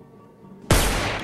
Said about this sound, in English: Private investigator shoots a hole through the partition wall.